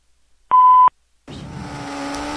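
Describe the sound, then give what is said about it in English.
A single steady voicemail beep sounds briefly to signal the start of message recording. After a short gap comes a low, steady rumbling background noise. “Record your message after the tone.”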